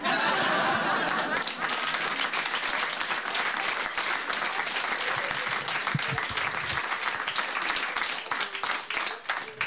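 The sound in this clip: Audience applause at a New Year's Eve cabaret comedy show, a dense, continuous wash of many hands clapping that holds steady and thins slightly toward the end.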